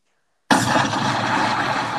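Bomb explosion sound effect: after half a second of silence, a sudden loud blast bursts in and settles into a sustained, dense roar with heavy low rumble until the end.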